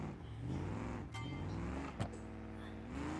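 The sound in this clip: Car engine revving in the BeamNG driving game while the car drifts, with a steady engine drone whose pitch rises and falls, plus one or two brief clicks.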